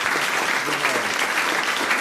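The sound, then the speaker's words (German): Audience applause for a guest during a live show: loud, dense clapping from many hands, a steady crackling roar that holds its level from start to finish. “Danke vielmals für dein Gastrecht da und einen Applaus bitte sehr.”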